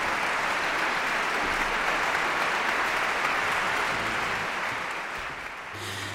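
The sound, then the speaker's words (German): A concert audience in Lugano applauds an orchestra and its young conductor after a Ravel performance. The clapping is dense and steady throughout and eases slightly near the end. “Applaus.”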